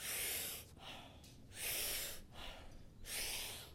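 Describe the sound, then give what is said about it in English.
Breathing exercise with deep, powerful inhales and softer partial exhales: rushing, airy breaths alternate between three loud, forceful swells and quieter stretches between them, fairly faint and heard alone. “The inhale is as deep as you can take it, very powerful. And the exhale is just soft. You're just letting out about a third of that inhale. So it sounds like this.”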